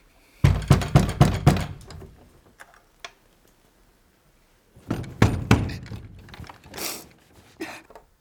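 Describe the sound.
A door is handled: a quick run of about five knocking thuds, a lone tap, then after a quiet pause another cluster of thumps and rattles.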